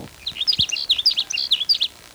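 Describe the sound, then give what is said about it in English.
A sage sparrow sings a rapid series of many short, high, sweet chirping notes in a quick tumbling phrase, with one soft low thump early on. “There's a sage sparrow that's singing near where the blackbird sparrow is.”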